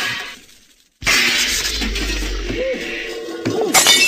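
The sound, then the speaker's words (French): A large shop window shatters: after a second of near silence comes a sudden loud crash, followed by sustained bright tinkling of falling glass and a second sharp impact near the end. “la grande vitrine vole en éclats.”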